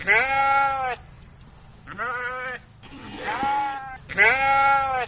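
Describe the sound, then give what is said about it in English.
Young woolly lambs bleating in a winery vineyard, where they graze to do the pruning: four wavering, nasal bleats in a row, the third rougher and breathier, with soft outdoor background between calls. “But at the Featherstone Winery, no man or machine does the pruning. Instead, the job is done by 40 cute little woolly lambs.”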